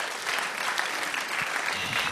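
Audience applause after a correct answer at a trivia quiz: steady, dense clapping from a crowd, moderately loud and continuous throughout with no talk over it.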